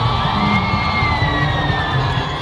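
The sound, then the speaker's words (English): A huge crowd cheers and shouts at Kinshasa's Ndolo Airport to welcome Pope Francis. A dense, steady mass of voices is threaded with sustained high, whistle-like tones. “Hundreds of thousands of people welcomed Pope Francis as he arrived at Kinshasa's Ndolo Airport on Wednesday. Before the pontiff delivered a mass to the crowds, they showed their joy while Pope Francis waved to them from his specially adapted vehicle”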